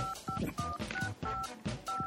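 Telephone keypad dialing an international call: a quick run of about six short electronic beeps, fairly faint, over steady background noise.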